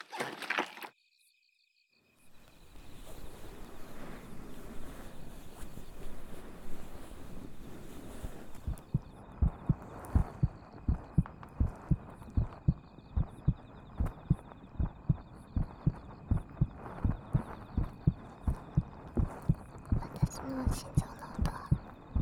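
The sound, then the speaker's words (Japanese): A heartbeat heard through a chest: after a brief rustle and a short silence, a soft hiss settles in and regular low thumps begin, repeating many times in a steady, even rhythm. “ほら、私の胸の音聞いてください。”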